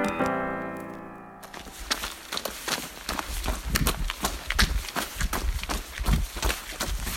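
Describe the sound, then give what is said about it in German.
Running footsteps of eight teenagers and young men on their three-kilometre lap at 6 a.m. at dawn, a steady patter of many quick steps that follows a brief held musical tone at the start. “Es ist 6 Uhr morgens. Acht Jugendliche und junge Männer laufen im Morgengrauen ihre drei Kilometer lange Runde.”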